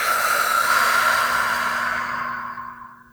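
A long, slow exhale during a guided breathing exercise: a steady breathy hiss that holds for about two seconds and then gradually fades away to near silence.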